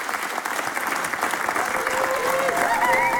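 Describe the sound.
A radio studio audience on its feet gives a standing ovation: dense, steady applause that holds strong and even through the whole stretch and swells slightly toward the end.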